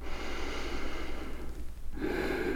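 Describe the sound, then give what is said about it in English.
A deep breath drawn in, a steady airy rush of air lasting about two seconds, with a brief change in tone near the end. “Let's all take a breath together.”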